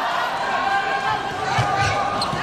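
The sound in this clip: A volleyball serve in a China vs Thailand match, heard as a couple of dull thumps of ball contact over steady arena noise and talking voices.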